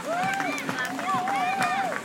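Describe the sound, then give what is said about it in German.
Spectators clap at the start of a charity run for a hospice, steady rhythmic claps under a lively crowd with raised voices and cheers. “Und Sie hören es im Hintergrund, hier wird an allen Ecken und Enden geklatscht.”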